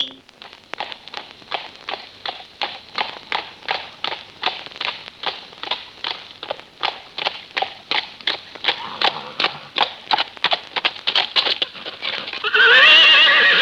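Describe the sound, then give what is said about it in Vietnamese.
A horse clip-clops in a steady, even rhythm, with many evenly spaced hoof beats. A loud, high whinny breaks in at the end. “hãy lên ngựa cùng tôi về sơn trại nghỉ ngơi.”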